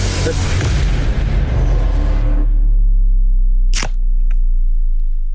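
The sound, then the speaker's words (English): A can of beer is cracked open with one sharp pop and a brief hiss. A stretch of dense, loud noise comes before it, and a low steady hum runs throughout. “let's crack a can, man. Here we go. Can one.”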